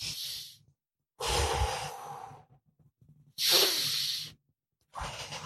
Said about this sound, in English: Then what you're going to do is take three big breaths in and out.